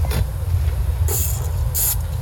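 A spray paint can hisses in three short bursts as white paint is sprayed onto graffiti lettering, over a steady low rumble.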